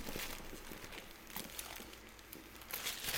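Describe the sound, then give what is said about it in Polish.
Heavy plastic film is peeled off a box, making faint, continuous crackling and crinkling with scattered denser bursts throughout. “Ja nie wiem, słuchajcie, naprawdę bardzo ciężka folia do usunięcia.”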